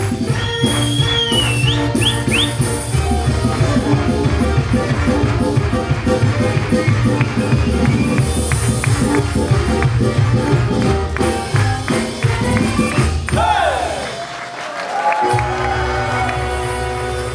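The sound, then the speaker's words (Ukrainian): Festival crowd cheering, shouting bravo and clapping for a Ukrainian folk dance ensemble at the Pidlaska Osin festival, a dense, loud and continuous wall of voices and applause throughout. “Ось такими бравами нагороджувала публіка фестивалю «Підляська осінь» Народний ансамбль танцю «Подолянка» кафедри хореографії Хмельницької гуманітарно-педагогічної академії”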